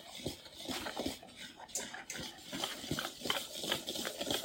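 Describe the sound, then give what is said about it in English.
A whisk stirs dry ingredients in a medium bowl: multi-purpose flour, almond flour, sweet rice flour, salt, cloves and cinnamon. It makes a faint, rhythmic run of soft scratchy strokes against the bowl. “And we're just going to whisk this together in a medium-sized bowl.”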